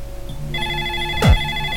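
Telephone ringing after a number is dialed: a steady electronic ring tone starts partway in and continues to the end, clear and fairly loud with no voices.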